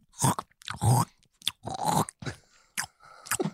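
Crunching and chewing of food as a person eats at a dinner table, a string of loud, irregular crisp bursts separated by brief pauses, with no talking.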